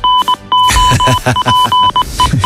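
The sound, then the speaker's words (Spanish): Goal alert sound effect: many bright electronic beeps, some short and quick, others held longer, ring out loudly over a busy, dense backing. “Suena el aviso de gol de tiempo de juego.”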